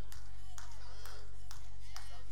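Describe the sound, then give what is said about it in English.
A lone person claps during a church sermon, a handful of sharp, evenly spaced claps rising above a speaking voice and a steady low hum. “Thank you, baby, right there. That's the only person. I got one clap in here.”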